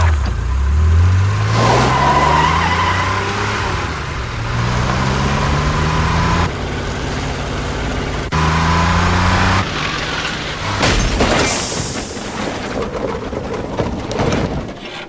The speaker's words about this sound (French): aucun arceau de sécurité et aucune ceinture dans nos voitures. Ainsi, nous vous offrons la plus extrême authenticité. Allons-y. On est prêt. L'accident mortel de James Dean. Go.